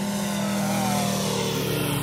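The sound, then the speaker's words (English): A model airplane engine drones loudly as the plane races at head height past a crowd at a grass-runway flying event after acrobatic tumbles. The buzzing is steady and unbroken throughout. “sends the plane through a choreography of acrobatic tumbles, then races it head height in front of the crowd. Look at that.”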